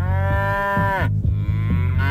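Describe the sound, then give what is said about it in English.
A cow mooing loudly: a deep, drawn-out, buzzy moo whose upper tones bend down and drop away partway through while the low drone carries on to the end. “Are the moos in charge?”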